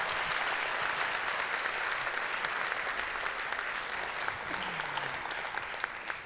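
A church audience applauds a pastor as he comes forward at a morning service, with many hands clapping in a steady, full patter that holds at an even level and eases slightly toward the end.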